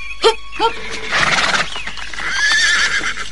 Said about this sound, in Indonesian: Mari kita turun dari kuda